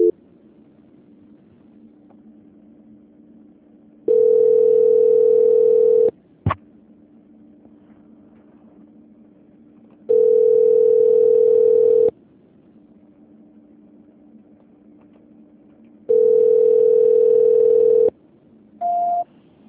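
Telephone tone plays while a call is being transferred: three evenly spaced, steady mid-pitched beeps, each about two seconds long with a few seconds of near silence between, then a brief higher-pitched tone at the end.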